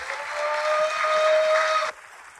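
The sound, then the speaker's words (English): Dense applause from a church audience welcoming a guest pastor to the stage, a steady loud wash of clapping that cuts off abruptly near the end, leaving only faint background. “would you guys give a rowdy City Tribe welcome to our dear friend and ministry partner, Pastor Johnny Petman. Give it up for Johnny there.”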